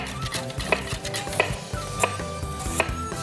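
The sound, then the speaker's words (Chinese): Knife slicing water chestnuts, heard as a steady series of sharp chopping taps roughly every two-thirds of a second over a continuous tonal background. “咁啊，另外我哋有啲馬蹄點樣切法啊？ 切片咯，”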